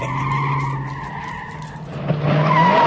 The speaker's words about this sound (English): A red car screeches across the main street